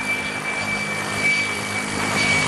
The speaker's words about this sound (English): All right, landing really good. Flying a long roll to the end.